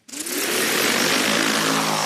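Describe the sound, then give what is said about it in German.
Steady, loud whirring of a drone flying over ripe spring barley on a test field in early August, used to drop cover-crop seed; the noise swells within a fraction of a second and then holds constant, with a tonal hum beneath broad rushing. “Statt mit schweren Landmaschinen das Feld zu beackern, fliegt Anfang August eine Drohne über die reife Sommergerste auf einem Versuchsfeld der Schwäbischen Alb.”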